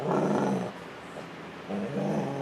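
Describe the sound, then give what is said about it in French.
A frightened, trembling dog shut in a small box growls low in two rough bursts with a quieter pause between them. No one speaks. “Oui, votre chien. Repos, il est au repos. Il est dans le petit box. Il tremble. C'est parce qu'il a peur. Il tremble, carrément. Il transforme sa peur en agressivité.”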